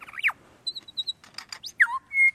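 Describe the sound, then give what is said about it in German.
A call attributed to a willow ptarmigan, a small, plump bird, recorded in Norway: a quick series of high chirps, squeaks and short whistles, some sliding in pitch, ending on a longer steady whistle, heard alone. “Was Sie hier hören, das ist das Moorschneehuhn.”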